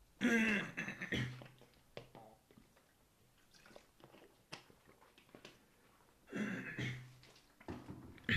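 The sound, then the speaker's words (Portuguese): Throat clearing comes in two loud, rasping bouts, one at the start and one later, with a few quieter throaty catches and short pauses between them. “Acabei de perder tipo um minuto de podcast para vocês me ouvirem tipo a puxar pela garganta”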